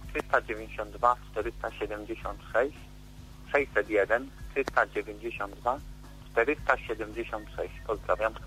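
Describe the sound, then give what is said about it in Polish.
A radio plays in the background of a caller's phone line during a classified-ads call-in. Voices come through thin and narrow over a steady low hum. “Ojej, ale prosimy ściszyć radio, bo nic nie będzie słychać.”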